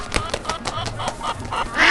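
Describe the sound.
Cartoonish chicken and duck calls in a video game counting puzzle sound off as a quick series of short honking, quacking bursts, with a louder, brighter call near the end.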